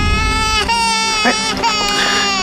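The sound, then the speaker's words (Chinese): Baby girl crying in a loud, continuous, high-pitched wail with strong harmonics, broken by a few brief catches in the breath over about two and a half seconds. “哎，你怎么哭上啊？丫头，你别哭，抱抱抱抱。”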